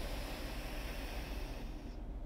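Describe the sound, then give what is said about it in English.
Deep inhale through one nostril during alternate-nostril breathing, a soft, steady airy rush sustained for about two seconds before its hiss tails off. “Plug one nostril, and then take a deep inhale on the other one.”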